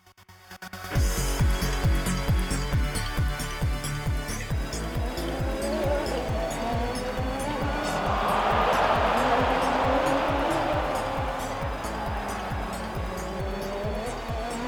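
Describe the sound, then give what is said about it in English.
Race cars drive on a track during the final lap of a race. Loud, continuous engine roar with rapid rhythmic pulses swells slightly midway and holds steady throughout. “The following podcast contains intense motor vehicle sounds.”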